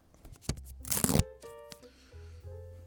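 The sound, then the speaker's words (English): A ripping, tearing sound: a rough, noisy burst lasting well under a second, set between fainter rustling and a low hum. No one speaks. “Rip it. It's being ripped.”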